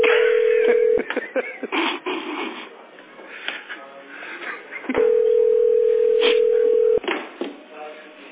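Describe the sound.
Telephone line tones while placing a call: a steady mid-pitched tone sounds at the start and cuts off with a click, a voice talks, then a longer tone returns and ends in another click before more talk.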